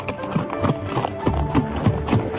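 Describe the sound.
Galloping horse hooves from a rider hurrying in: a quick, steady drumming of many hoofbeats at an even, driving rhythm, fairly loud and with no voices.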